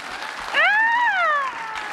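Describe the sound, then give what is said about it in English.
Audience applause for a speaker at the close of a panel conversation, a steady wash of clapping with a sustained high tonal cry rising over the middle and fading. “Round of applause for Craig.”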